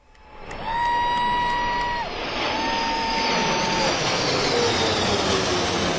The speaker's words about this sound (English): That was the sound of a flyover in Washington, D.C.